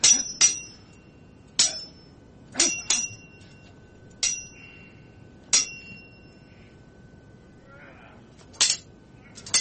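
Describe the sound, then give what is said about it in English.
A sword sound effect of sharp metallic clinks, each strike ringing briefly before fading, spaced irregularly with some in quick pairs, over a quiet background. “Sword ratcheting this time.”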